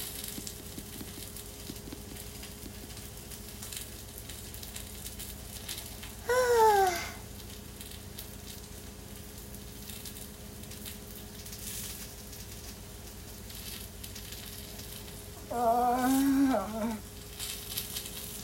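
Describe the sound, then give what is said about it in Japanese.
Food sizzles in a pan over medium heat, giving a soft, steady crackling hiss, and a voice breaks in briefly twice over it. “だからちょっと今回はね、そうならないようにじっくり、まあ、中火ぐらいで、いやー焼きすぎない程度で頑張っていこうと思っております。”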